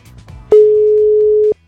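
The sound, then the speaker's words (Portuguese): A telephone ringback tone on an outgoing call: one steady, mid-pitched tone holding loudly for about a second, then cutting off, after a stretch of faint low background sound. “Atenda, hein? Tá chamando.”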